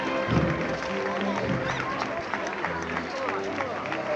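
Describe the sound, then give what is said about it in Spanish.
Applause and crowd noise fill a street in Jaén, Spain, during a petal shower from balconies over a Holy Tuesday procession. Dense, continuous clapping mixes with voices singing a Salve. “Y este canto de la salve, eh, encarnación coronada, que acompaña junto con los aplausos a la petalada.”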